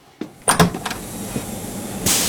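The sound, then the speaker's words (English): A door into a laundry with boiling baths for linen is pushed open, giving a few knocks and thumps, then a loud, steady hiss. “Pray, push open that door.”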